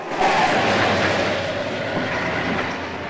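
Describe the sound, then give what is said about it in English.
An ambulance roars as it speeds through imposing stone pillars and along the leafy drive of a hospital. The broad, steady rushing rumble swells at the start, then eases a little as it continues. “The ambulance hurtles through the imposing stone pillars of Whitestone Sanitarium and Hospital.”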